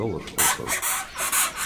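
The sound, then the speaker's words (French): Scratchy, rasping squeaks from a dorcadion beetle in distress, made with its hard chitin. A quick series of several harsh, high bursts follows in an uneven rhythm, fairly faint. “c'est un dorcadion, donc ça, c'est plutôt un son de détresse.”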